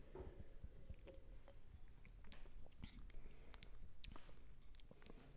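A small tasting sip of wine from an Ibiza winemaker, heard as low, soft slurping and mouth sounds, fairly quiet and steady throughout.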